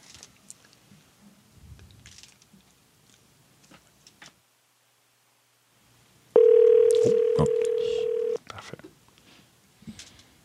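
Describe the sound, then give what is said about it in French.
A single steady electronic telephone ring tone sounds for about two seconds, loud and unbroken, after a stretch of faint scattered noises and a short silence. “on va te demander, donc, de l'appeler tout de suite. Puis, nous autres, dès que ça sonne, réembarque-nous en ligne”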